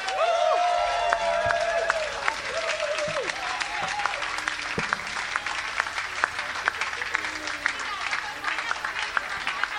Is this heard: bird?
no